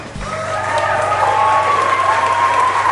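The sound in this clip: Applause and crowd noise from an audience welcoming a keynote speaker, a dense, steady clapping texture that holds at an even level from start to finish.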